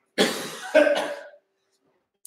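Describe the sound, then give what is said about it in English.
Two harsh, throaty coughs in quick succession, the second longer and more drawn out, followed by silence. “Shame I didn't have a cough on Purim. I could have done Haman that way.”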